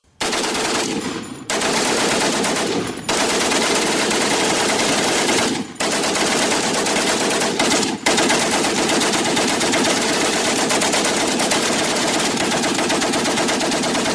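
Machine gun fire sweeps a hillside of attacking infantry on the 1915 Italian Front. Long, loud, continuous bursts are broken by a few brief pauses, with no voices.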